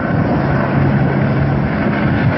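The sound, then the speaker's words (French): Steady, loud roar of water-bombing planes and helicopters fighting a wildfire, a dense, unbroken engine drone with a low hum running underneath for the whole stretch, with no voices. “Tout l'après-midi, un balai aérien composé de 5 canadaires, 2 Dash et 4 hélicoptères bombardiers d'eau.”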